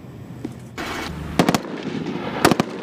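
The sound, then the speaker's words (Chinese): Small-arms gunfire rings out during a live-fire shooting exam by soldiers on a snowy plateau above 4,000 metres. Two short clusters of sharp, loud cracks stand out from a rough, steady background noise. “新疆军区某部正组织官兵展开轻武器实弹射击考核”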